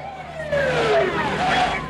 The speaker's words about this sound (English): A couple of cop cars arrive on the scene, and they bolt.